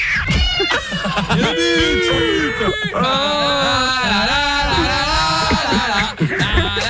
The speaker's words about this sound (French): Elle dit pas qu'il a un bruit chelou, son chat?